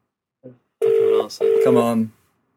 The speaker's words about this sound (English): Is that dialing? Is it working? Did I dial enough numbers? There we go.